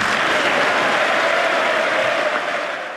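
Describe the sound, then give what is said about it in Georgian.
Sustained ovation in the US Congress for the president's speech: dense, steady clapping from a large audience, loud and even throughout, easing slightly in the final moments. “გამოაცხადა შეერთებული შტატების პრეზიდენტმა, რომლის გამოსვლასაც, როგორც მოისმინეთ, კონგრესში ოვაციებით შეხვდნენ.”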